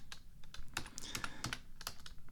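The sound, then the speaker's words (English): Someone types one-handed on a computer keyboard, producing faint, irregular clusters of clicking keystrokes with uneven pauses between them. “damn it, I can't really type with one hand.”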